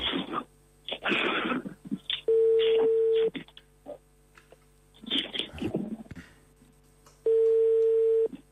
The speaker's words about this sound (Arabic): هاي للمرة الثانية عم نتصل فيه ولكن ما في رد.